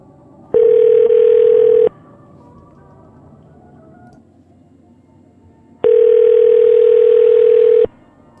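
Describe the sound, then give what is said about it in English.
A telephone line tone sounds as a number is dialed. Two long, steady, mid-pitched tones, each about one to two seconds long, are separated by a few seconds of near silence with faint background noise. “I'm going to dial the number, but this might be the company's number.”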